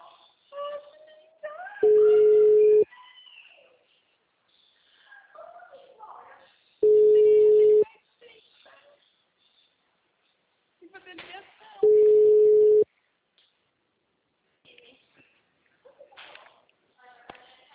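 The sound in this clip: Ringing tone of an outgoing telephone call: three long, steady, mid-pitched beeps evenly spaced about five seconds apart, with quieter voices talking in the gaps between them.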